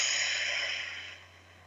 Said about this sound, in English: So let's take a breath together, one of those deep belly breaths. In through the nose, out through the mouth.